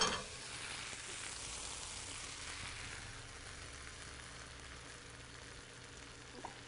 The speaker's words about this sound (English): Leave it going, getting ready for our omelet, which should be coming out shortly. All right, now we're ready to add the eggs.